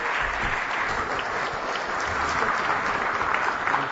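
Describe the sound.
An audience in Virginia welcomes Montana governor Brian Schweitzer with steady, dense clapping that holds an even level throughout, with no voices standing out.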